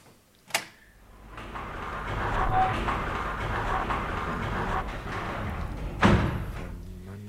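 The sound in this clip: A window blind is let down and closed, opening with a sharp knock. A long, rattling rumble follows for several seconds and ends in a heavier thump, with no voices.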